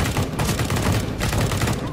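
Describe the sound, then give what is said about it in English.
Rapid gunfire, many shots in quick succession forming a dense, loud burst of sharp cracks with little gap between them. “Contact, shots fired.”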